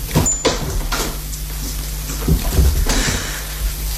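A door is opened for an arriving visitor, giving a few soft knocks and rattles over a steady, loud noisy background.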